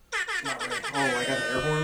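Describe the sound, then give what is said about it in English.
Air horn sound effect blaring in a rapid series of short, loud, brassy blasts that run straight into one long held blast. “Oh, I got the air horn. Another air horn.”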